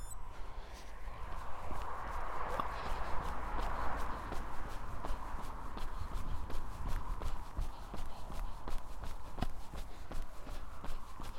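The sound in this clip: Running footsteps of a person setting off on a run down the side of a loch, a long steady series of quick footfalls over a continuous soft background hiss.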